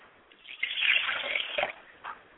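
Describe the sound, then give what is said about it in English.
Water is poured into a glass as a libation for a mother's spirit. It is a short, bright trickling pour lasting about a second, with a faint splash after it. No one speaks. “I pour a glass of water for my mother's spirit”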